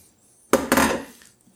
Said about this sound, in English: Give this colander a shake just to make sure it's all off of there. I'm gonna put the potatoes back in.